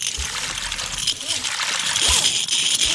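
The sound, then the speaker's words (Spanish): Fresh water thrown onto rock salt to dissolve it, a continuous hissing splash and slosh of water with no quiet gaps throughout. “Excavábamos cañas y pozos hasta la roca salina. Después, le lanzábamos agua dulce para disolverla.”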